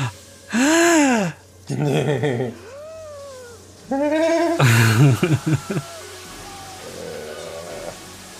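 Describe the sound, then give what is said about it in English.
Sharp gasps from a 1990 horror film, a series of loud, breathy, voiced intakes of breath with rising and falling pitch, crowded close together. “I love the gasp. It's like a double gasp.”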